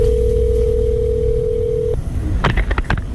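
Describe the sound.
A steady telephone tone on an emergency call to 112 holds one even pitch for about two seconds, then cuts off abruptly. A few short tonal blips and clicks follow over a low background hiss.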